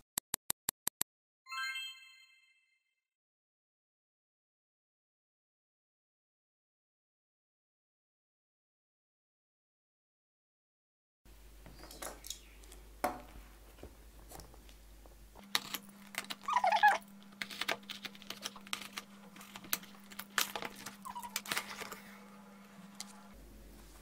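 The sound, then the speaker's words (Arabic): A box is opened with irregular rustling, scraping and tapping of packaging through the second half. Before it come a few sharp clicks, a brief ringing ding and a long silent gap, with no talk. “خلينا نفتح العلبة الاول وبعدين نتكلم”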